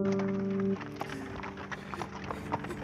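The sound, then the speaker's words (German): Horse hooves clip-clop as a carriage is pulled along, with a steady trotting rhythm of quiet, repeated knocks and a faint hum at the start. “So überquert die Kutsche die Grenze nach Frankreich.”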